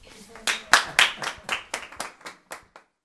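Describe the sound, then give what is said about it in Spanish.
Hand clapping from an audience at a neighborhood homework-help school event: a short run of about ten sharp, separate claps at a fairly even pace, growing lighter toward the end. “Un aplauso.”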